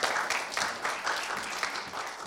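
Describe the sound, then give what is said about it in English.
A church audience clapping during a sermon: faint, steady applause with a loose rhythm, sustained throughout. “And I thought, you can clap for that. That's okay.”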